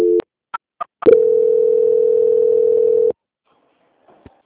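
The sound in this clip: Telephone call transfer tones: a short beep and two brief blips, then a steady, level electronic tone lasting about two seconds before cutting off abruptly, followed by a faint click.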